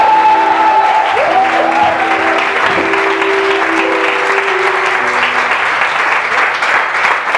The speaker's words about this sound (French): Au nom de Jésus, est-ce que tu peux acclamer le Saint-Esprit Alléluia!